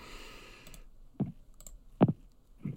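A computer mouse clicks a few times, quiet and crisp, with short uneven pauses between the clicks over near-silence.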